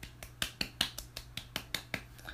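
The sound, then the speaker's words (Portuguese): Applause imitated with the mouth: a quick, regular series of sharp clicking pops, fairly faint, each one crisp and short, with no talk over them. “Vocês não só merecem palmas, como ó. Que eu não vou pôr efeito sonoro. Vou fazer com a boca, que eu não tenho paciência.”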